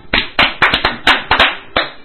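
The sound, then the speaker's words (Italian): Applause sound effect made of about eight sharp hand claps, loud and alone, spaced irregularly with a slightly muffled, band-limited tone. “Lo ha stabilito ovviamente il Tribunale di Roma, che noi applaudiamo per la sua demenza,”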